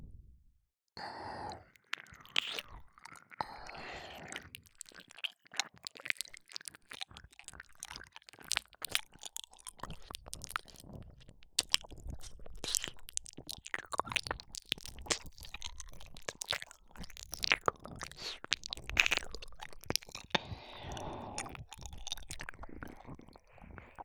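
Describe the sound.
Ear cleaning close to the ear, with many soft, irregular crackling, scratching and clicking noises. A breathy sigh comes near the start, and the sounds stay fairly faint with no speech.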